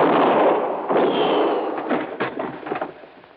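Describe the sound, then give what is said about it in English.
Gunshot sound effect in a radio drama: a loud blast with a long, rough decaying rumble, a second burst about a second later, then fainter crackles trailing off. “I can see in here, but you can't. Now, well, I can see the flash of your gun.”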